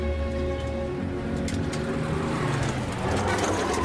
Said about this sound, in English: Joel is nearly knocked down by a truck.